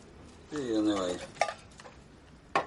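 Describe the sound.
Cooking sounds come from a kitchen scene in a 2012 thriller drama: pots and cutlery clatter and stir, with two sharp metallic clinks and a brief voice over the background.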